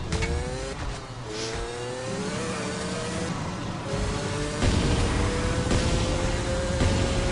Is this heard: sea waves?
no